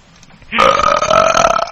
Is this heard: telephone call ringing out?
no